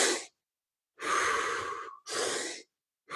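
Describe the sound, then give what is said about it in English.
Deep breaths in and out through the mouth, as part of a 30-rep breathing exercise, sound as loud, rushing airy gusts. A long breath runs straight into a shorter one, with brief silences around each pair. “So I'm just going to inhale through my mouth and then exhale out my mouth.”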